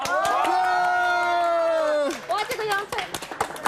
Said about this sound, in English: 来，各位，大家一起一二三，鼓掌！